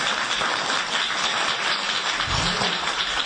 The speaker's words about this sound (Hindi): जोरदार ताली हो जाए सार के लिए,